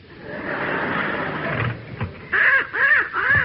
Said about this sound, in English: What's that you've got? A little crow, ma'am.